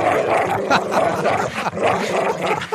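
A recorded dog barking, played back as an alarm: many loud, rough barks come in repeating bursts with a growly edge, heard alone without talk.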